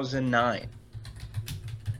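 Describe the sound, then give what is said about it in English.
Computer keyboard typing during an online search: a quick run of soft, irregular key clicks right after a brief stretch of someone talking. “Let me Google this.”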